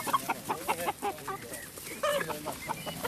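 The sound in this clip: Free-range hens cluck busily in a quick, irregular run of many short, throaty clucks and calls, fairly loud and close together.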